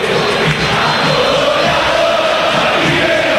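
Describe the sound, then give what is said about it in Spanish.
River Plate fans in a football stadium cheering and chanting nonstop as a player steps up to take a penalty. A dense, loud, continuous crowd roar with no breaks. “El público de River, que no para de alentar, acomoda a Torres.”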